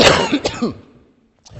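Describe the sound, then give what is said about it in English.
A single short cough merges into a raspy throat clearing, loud and alone, then quiet, with a brief second burst just before the end. “Sorry for my little cough there at the end.”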